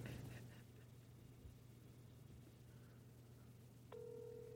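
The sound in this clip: A faint phone-line ringing tone is heard while a call is placed by voice command to a phone. A low steady hum runs throughout, and a clear tone starts near the end.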